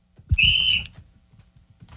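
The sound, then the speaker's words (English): A referee-style whistle is blown once to start a 20-second play clock in a backyard football game: a single short, shrill, steady blast with a soft thump at its onset, then near silence. “But as soon as I blow this whistle, he's on the 20-second clock.”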